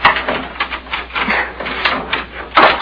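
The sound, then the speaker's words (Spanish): A key being tried in a door lock gives a continuous, fairly loud stretch of metallic rattling, scraping and clicking, with a sharper jangle near the end and no voices. “Vamos a ver si esta es la llave. A veces se me confunde.”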